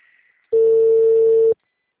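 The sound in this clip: Telephone ringback tone while placing a call, a single steady mid-pitched beep lasting about one second against near silence.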